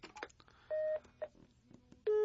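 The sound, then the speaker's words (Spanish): A telephone number being redialed, with a few electronic keypad beeps, two long steady tones and one short one, after brief talk at the start. “Sí, sí, voy a volverle a marcar.”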